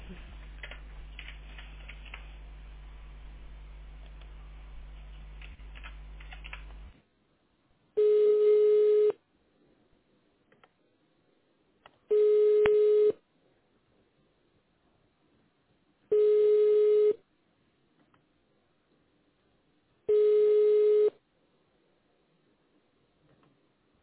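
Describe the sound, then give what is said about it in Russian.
Ringback tone of an unanswered transferred phone call. It comes in as four even, mid-pitched buzzing rings about a second long, spaced by stretches of near silence, after a dense block of steady noise. “Номер не отвечает.”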